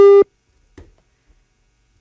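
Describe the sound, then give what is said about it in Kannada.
A telephone busy tone after a phone-in call drops: one loud, steady, mid-pitched beep, already underway at the start, cuts off within a quarter second. Near silence follows, broken by a couple of faint, brief noises. “ಕರೆ cut ಆಯಿತು, ಕರೆ ಕಡಿತಗೊಂಡಿದೆ.”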